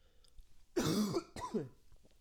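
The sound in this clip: Throat clearing and coughing from someone with a frog in the throat: two rough, raspy bursts close together, the first longer and harsher, with no talk over them.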